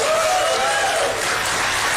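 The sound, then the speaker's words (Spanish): A crowd at a political rally applauds loudly in an impromptu applause poll. Thick, continuous clapping mixes with cheering voices rising above it. “improvisando entre los asistentes un sondeo de aplausos entre su vicepresidente y su secretario de Estado”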